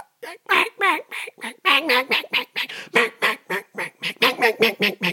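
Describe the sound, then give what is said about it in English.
A duck call imitates a hen mallard with a long, fast run of loud, raspy quacks, some wavering in pitch. The quacks come in quick, uneven bursts and continue to the end. “That's a hen mallard.”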